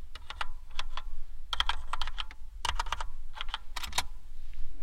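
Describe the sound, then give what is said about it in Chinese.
Rapid typing on a backlit mechanical keyboard with black switches: many crisp clacking keystrokes in quick bursts, with short gaps between runs and an even loudness throughout. “我的双手是和你亲密接触的能够发光的键鼠，喜欢我指尖的触感吗？”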